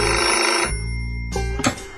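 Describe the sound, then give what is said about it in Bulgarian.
A telephone rings around midday, its bright, electronic, steady tone holding for most of a second. After a pause come two shorter ring bursts close together, fairly loud with no voices. “Телефонът звънна към обяд.”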